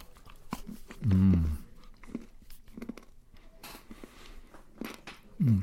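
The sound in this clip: A molded vegan chocolate bar is chewed, giving faint crunchy bites and small wet mouth clicks. A couple of short, louder hummed voice sounds break in.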